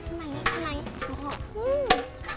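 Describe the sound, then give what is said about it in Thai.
A spoon stirs a pandan-scented mixture in a pan, giving soft scraping strokes with a faint sizzle and a couple of sharper knocks against the pan. “หนูกวนนะคะ”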